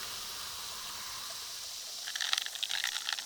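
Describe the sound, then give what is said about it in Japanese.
Strongly carbonated soda poured into a drink: a steady soft hiss, then a brighter crackling fizz of bursting bubbles that builds over the last second or so. “私はあの強炭酸ソーダを入れて”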